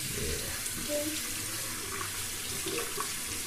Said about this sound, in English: I'm not washing my hands yet. Oh, okay. Let me wash mine.